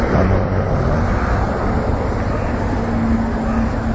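Wind blowing outdoors in Niigata city on a cloudy, slightly warm July day: a steady, dense rushing noise with low rumbling buffets against the microphone, continuous and even throughout, with no voices.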